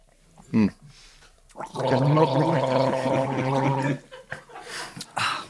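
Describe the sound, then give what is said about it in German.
Several people gargle a drink together in a long, bubbling burst lasting a couple of seconds, with voices and brief laughter around it. “Mach einfach, trink und Gurgeln oder? Nein. Beim Gurgeln schmeckt es tatsächlich mehr. Ehrlich? Ja. Ja, komm dann. Aber dann bist du auch schneller blau. Ja, dann gurgeln wir alle, komm.”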